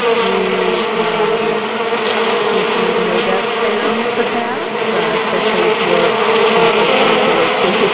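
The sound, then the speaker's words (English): Many bees buzz together in a dense, continuous drone that holds steady and loud without pauses. “No, that wasn't any kind of weird interference. That was the bees buzzing around in my bonnet.”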